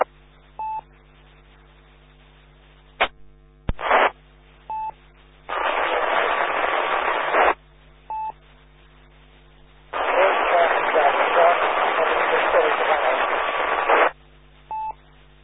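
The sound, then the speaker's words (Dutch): A weak amateur radio transmission buried in hissing static. Two long bursts of band-limited noise swell and cut off, and short electronic beeps and a couple of clicks recur in the quieter stretches between them. “Dat is zeer diep in de ruis. Ik weet niet of iemand anders dit heeft kunnen nemen, maar ik kan er helaas niet van maken.”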